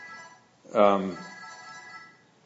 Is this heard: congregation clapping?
no